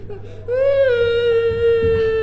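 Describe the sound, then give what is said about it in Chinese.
A child cries in a long, loud wail that begins after a short quiet lead-in. The high, tremulous tone is held steady with no other sound over it. “好孩子，别哭了，这事儿啊，阿姨解决。”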